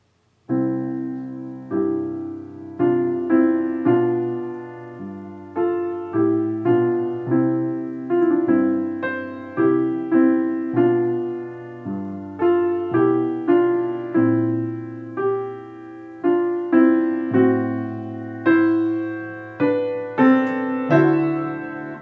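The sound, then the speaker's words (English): A string section plays a sweet, ethereal lyrical theme, the closing theme of a slow movement. It moves in smooth, legato phrases of sustained notes at a moderate, even loudness, with no voices. “you'll hear it in the strings being accompanied by the violin solo, but the string part will sound like this.”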